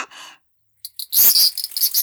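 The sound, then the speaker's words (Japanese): A cicada gives short, high, buzzy bursts as it takes flight, with a few rapid rasping pulses in quick succession. “あ、セミが飛んで逃げちゃった。”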